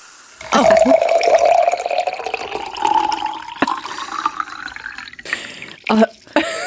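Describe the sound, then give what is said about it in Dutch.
Champagne poured into a glass makes a steady gurgling, fizzing stream whose tone rises gradually as the glass fills, with crackling bubbles throughout. The pour then stops, followed by a few brief splashes and drips. “Dit heb je vaker gedaan. Ik heb een glaasje champagne ingeschonken.”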